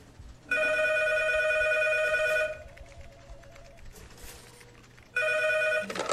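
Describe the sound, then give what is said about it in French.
A telephone rings at a small-town police station: a long bright electric bell ring of about two seconds, a quieter gap with faint sounds, then a second, shorter ring. “La soirée est plutôt calme au commissariat de la petite ville de Luçon quand le téléphone sonne.”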